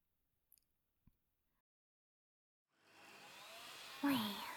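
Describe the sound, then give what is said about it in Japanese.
A vacuum cleaner sucking up dust in a room starts after a couple of faint clicks. Its steady whooshing rush builds and then swells louder near the end. “確か勇者様は、この機械を使って部屋の埃をいちいち吸い集めておったな。どれ、真似してみるか。”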